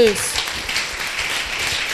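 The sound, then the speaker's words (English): An audience claps for Jesus during a church sermon, a steady, even spread of many hands clapping at moderate loudness, with a brief voice heard only at the very start. “Clap for Jesus.”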